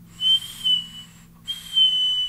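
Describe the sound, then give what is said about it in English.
High, steady whistling from a Goon device whose air holes are lined up perfectly. There are two clean tonal bursts separated by a short silent gap, over a faint low hum. “What I've noticed about the Goon is that if you align the air holes just right, it will whistle.”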